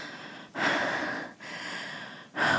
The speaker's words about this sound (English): wait till my breathing calms down